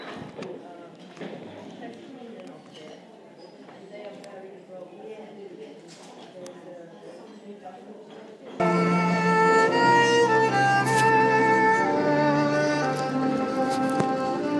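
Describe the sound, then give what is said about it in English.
City street background in Cork as someone walks away from a bar: low ambient noise with scattered footsteps and indistinct voices, then an abrupt jump to a much louder, sustained tonal sound for the last few seconds. “you can hear the sounds of Cork City in the background as I walk away from the Woodford Bar”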